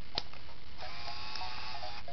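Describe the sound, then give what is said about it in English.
A printer powers on and feeds paper, starting with a sharp click and followed by a faint, steady motorized whirr with a thin whine running underneath. “And now we'll turn the printer on.”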